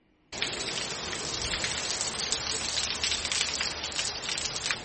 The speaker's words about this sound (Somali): Wararka imaanaya gobolka Bari ee Puntland iyo qaybo ka mid ah Shanaag ayaa sheegaya in roob mihigaan ah halkaas uu ka da'ay.